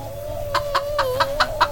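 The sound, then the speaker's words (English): Chickens clucking in a chicken run on a ramshackle farm: six short, evenly spaced clucks over a steady tonal hum and low background rumble. “On the outskirts of Arkham, not too far away, is a ramshackle farm and an 11-year-old boy shaking with terror in a chicken run.”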